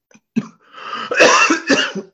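A sneeze bursts out: a short sharp intake-like catch, then a longer noisy, breathy expulsion in two or three loud surges, with no talk over it.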